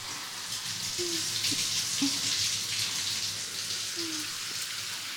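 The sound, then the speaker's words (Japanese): Running water rinses shampoo foam out of hair in a steady, even rush of splashing hiss that holds at one level throughout, with no talking. “泡が残っていたりすると、それが髪の毛のダメージになっちゃうので、しっかりと時間をかけて流していきますね。”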